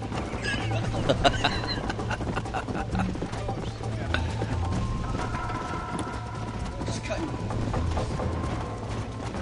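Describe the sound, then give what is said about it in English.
Hooves of a video game horse clop steadily and faintly in a continuous running rhythm, with a voice talking over the gameplay. “And the horse runs faster if it's on the path than it does if it's off-roading.”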